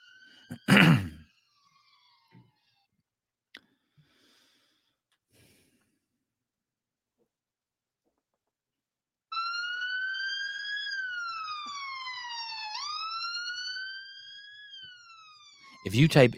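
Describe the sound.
A police siren sound effect, set off from a button, wails as one steady harmonic tone that climbs slowly, dips briefly and rises again, standing alone after near silence, with a few short noisy bursts at the start and end.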